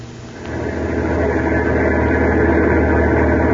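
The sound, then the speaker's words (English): Steady low engine rumble of a heavy truck hauling 10 tons of high explosives along a foggy, mountainous highway. The drone swells in the first half second, then holds a constant, loud, even roar with no voices. “a heavy truck carrying 10 tons of high explosives to a government arsenal was rolling along a foggy, mountainous stretch of Highway 9W in eastern Pennsylvania.”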